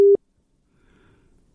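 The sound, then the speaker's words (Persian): A telephone busy signal sounds once after a dropped call on a weak internet line: a single short, steady mid-pitched beep, then near silence with faint low rustle. “فکر میکنم نت ضعیف است. تماس شنونده عزیز با ما قطع شد.”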